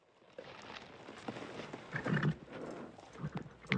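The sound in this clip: Horses being ridden: faint, scattered hoof clops over a soft background, with a short snort or whinny rising midway and again at the end.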